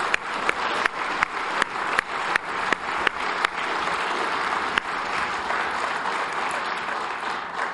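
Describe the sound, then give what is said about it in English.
An audience applauds three graduating high school seniors with dense, continuous clapping, several sharper individual claps standing out in an irregular pattern throughout. “Let's give them a hand.”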